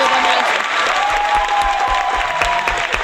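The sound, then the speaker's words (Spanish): Canned applause sound effect played to welcome a new technician: dense, steady crowd clapping that holds at a constant level throughout, with a voice faintly audible beneath it. “Claro que sí, ponte unos aplausos, Óscar.”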